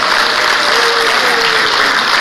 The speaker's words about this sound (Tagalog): Okay, so let us clap our hands to our MHOs.